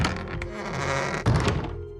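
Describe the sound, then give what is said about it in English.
A door is shut with a single dull, low thunk partway through, rising briefly above a steady tonal background. “Don't mind closing the door for some privacy.”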